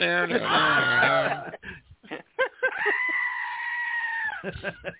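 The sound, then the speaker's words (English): A goat screams with a loud, wavering, harmonic bleat, then brief choppy cries and a second long, steady, high scream. “I think maybe the Johann Scream or whatever might have been a goat.”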